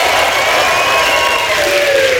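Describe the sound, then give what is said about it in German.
Audience at a stage show applauding and cheering, a steady dense clapping with held whoops on top and one drawn-out tone sliding downward near the end. “Auftretende in dieser zweiten Hälfte wieder mit einem 10-Punkte-Applaus auf die Bühne.”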